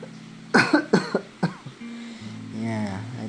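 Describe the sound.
Three sharp, harsh coughs come in quick succession from someone with something caught in the throat, followed by low voiced throat sounds.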